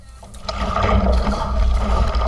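Water swishing and rippling as a canoe is paddled on the Elbe river during training on a grey, dry day with a light headwind, a steady, fairly loud wash of noise with no voices.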